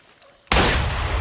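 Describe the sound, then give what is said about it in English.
A single loud gunshot-like blast cuts through near silence during a jungle firefight, followed by a long, rumbling tail. “I'll fire off a shot. What? Fire off a shot!”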